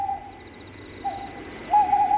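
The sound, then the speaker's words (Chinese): An owl hoots three times outside a door, each a steady, mid-pitched hollow call, evenly spaced and fairly loud over a low background hum. “正说着，门外又传来三声猫头鹰叫。”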